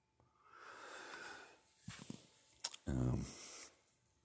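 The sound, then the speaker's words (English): A short, low, croaking burp bursts out loudly near the end, after quieter breathing and soft mouth noises. “Excuse me, I burp during this.”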